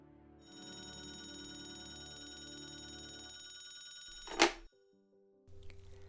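A telephone rings faintly with a steady, buzzing tonal ring for several seconds, then breaks off in a short, sharp burst followed by quiet.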